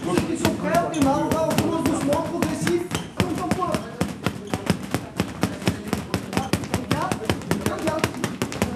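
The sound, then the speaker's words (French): Gloved punches thud on three well-worn punching bags during a boxing gym warm-up. Many sharp, rapid, irregular hits, with people talking over the first few seconds. “Ambiance traditionnelle d'une salle de boxe avec le ring bleu qui est au fond, échauffement, 3 sacs de frappe sur la gauche qui ont plutôt bien vécu.”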